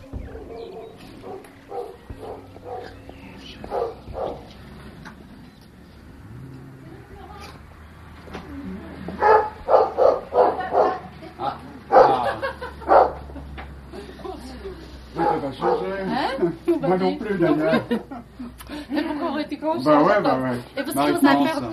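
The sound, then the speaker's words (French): A shepherd dog, a Berger Picard, barks in repeated bursts while several people talk over and around it. “Est-ce que vous avez peur des chiens? C'est un chien loup, mais pas trop.”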